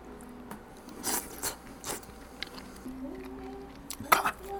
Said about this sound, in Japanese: これはフグの身と皮と肝と、それにネギともみじおろしが載ってます。いただきます。逆旬のフグを。